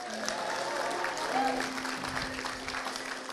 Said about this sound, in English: So let's put our hands together, welcome all the kids.